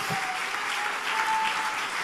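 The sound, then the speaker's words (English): A church audience applauds in praise of God: a broad, sustained rush of clapping stays steady and moderately loud from start to finish. “Let's give God a hand of applause for that.”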